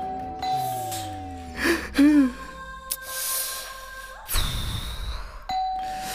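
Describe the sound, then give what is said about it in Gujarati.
A doorbell ringing as a few electronic chime tones, mixed with other brief effect sounds and some breathy noise. “ઘંટી વાગે છે ઘંટી વાગે છે ઘંટી વાગે છે”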